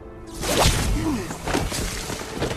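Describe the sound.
Staff weapon blast in a sci-fi TV show: an abrupt, loud whooshing burst that opens into dense rushing noise with sweeping swishes running to the end.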